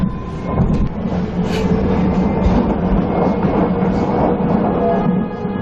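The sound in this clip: An underground metro train at Chamberí station in Madrid gives a loud, continuous low rumble with rattling texture. It swells in at the start, holds steady for several seconds, then eases off at the end.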